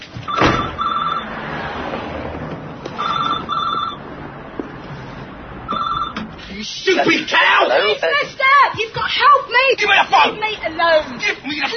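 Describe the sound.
Telephone ringing tone after a number is dialed during a stage performance: a few repeated double-burst rings over a crowd murmur, then people talk loudly.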